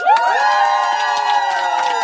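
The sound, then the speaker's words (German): A live studio audience at a stand-up comedy show in a radio studio cheers with one long, loud whoop held steady for about two seconds. “wenn es Jubelschreie gibt, ihr könnt ruhig weitermachen, nur weil ich rede.”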